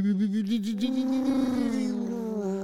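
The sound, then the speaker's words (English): A voice imitates the futuristic whir of an all-electric Porsche car, a sustained hummed tone that wobbles rapidly at first, then holds steady and dips slightly lower near the end. “the Porsche, I can't remember the name of it, but it's an all electric car. Mm-hmm. But it sounds like something off of the Jetsons. It's like,”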